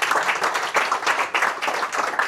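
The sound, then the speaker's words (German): A short round of applause at a golf event marks the first Beat the Pro challenge. The clapping comes in uneven, pulsing bursts. “Das erste Beat the Pro, da gibt's nochmal einen extra Applaus.”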